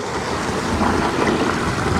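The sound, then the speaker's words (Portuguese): Ten litres of water pour into a bucket packed tightly with leaves, a steady, full rushing splash that continues throughout. “Coloca essas folhas dentro, né? Bem socadas assim no fundo. No fundo do balde. E despeja daí os 10 litros de água.”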